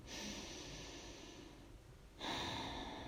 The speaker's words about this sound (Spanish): Seguimos inhalando y exhalando profundamente por la nariz.